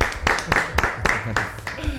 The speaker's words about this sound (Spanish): Toma ya, otro aplauso para que se lo tiene. Súper merecido.